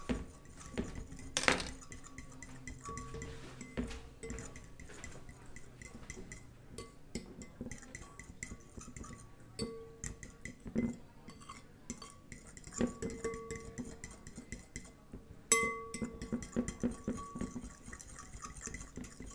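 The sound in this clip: Gentle stirring of a batter mixture with milk and egg while cooking, quiet scraping with scattered soft clinks of a utensil against the bowl, continuing steadily throughout.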